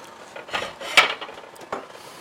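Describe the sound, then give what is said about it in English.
Metal kitchen utensils clink and rattle as an angled spatula is pulled out from among them: a few light, scattered clanks, the sharpest near the middle, with no talk. “Let me squeeze in here. Grab out the angled spatula.”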